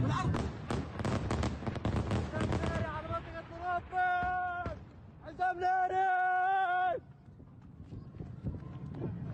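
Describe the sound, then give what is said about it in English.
Airstrike explosions in video footage: a rapid cluster of loud booming, crackling blasts over the first few seconds, then raised voices with strained, sustained tones between quieter stretches. “Here's another angle of that airstrike going off.”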